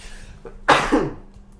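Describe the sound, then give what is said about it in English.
A person sneezing once, with a brief sharp intake of breath followed by a single loud, explosive burst that trails off quickly into quiet. “And, oh my god, I gotta sneeze.”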